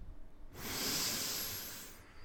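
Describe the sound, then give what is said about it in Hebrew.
A single long breath, an airy, steady hiss lasting about a second and a half, quiet and heard alone. “ואז התחלתי לנשום.”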